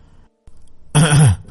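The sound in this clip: A single brief, gruff throat clearing, loud and rasping, lasting under half a second after near silence.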